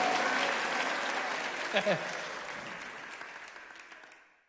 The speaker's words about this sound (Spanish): Te aplaudimos, Jesús, con toda nuestra fuerza.